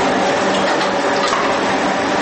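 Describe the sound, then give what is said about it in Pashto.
Machines in a workshop making sandals and shoes give off a dense, continuous mechanical whir that stays level throughout, with no talk. “ځوانان په کار لګي وو. چا د ماشین قالبونه خلاصول، چا تازه تولید شوي چپلک او بوټان سره سمول، چا ګلکاری پرې کول او چا په خلطو کې سنبالول.”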